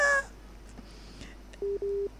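A busy signal on a phone line after a dropped call: a brief higher multi-tone burst at the start, then two steady low beeps near the end after a quiet stretch.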